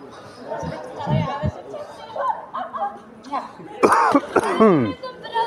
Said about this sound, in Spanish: Perdón, que me ha dado un ataque de tos, ha picado la garganta.